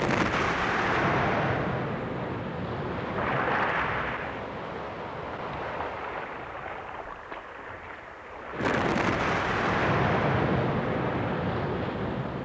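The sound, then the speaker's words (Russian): A sperm whale slapping its tail on ocean waves, heard as a long, loud roaring wash of surf-like noise that eases off midway, then returns with a sudden heavy burst and sustained roar. “Нет, нет, это кашалот бьет хвостом по волнам. Ух, такой удар может разнести нашу шлюпку в щепки.”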